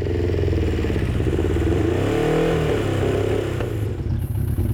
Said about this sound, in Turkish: Şu an jikli açık mı? İki silindirle çalışıyor, belki üç.